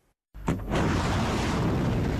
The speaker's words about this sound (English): this footage shows a strike on a petrochemical facility in Mashhad in the southwest of the country.